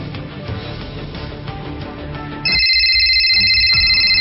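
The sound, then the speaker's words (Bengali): Telephone ringing on an outgoing call: after a stretch of music, a steady high electronic ringtone starts abruptly and continues through the final seconds. “দিক বিদিক না পেয়ে foreign এর মায়ের কাছে phone করল সাফওয়ান।”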